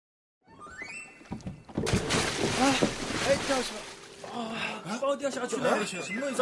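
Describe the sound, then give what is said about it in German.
A bale dropping into murky water beside a ship, with a sudden broad splash after a quieter stretch, then continuing sloshing, and voices over the water. “Zwei der Kulis hatten einen Ballen in das trübe Wasser fallen lassen.”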